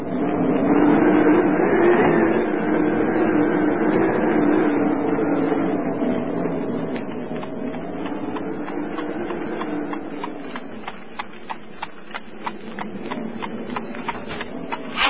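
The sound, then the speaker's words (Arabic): Horse-drawn carriages arrive carrying travellers from Whitecross, a steady, regular clopping that emerges in the second half after a sustained, humming tonal bed, loud and without speech. “المركبات التي تحمل المسافرين من الصليب الأبيض. لابد أن يكون مستر سان جون قد وصل، سأسرع لأتابعه.”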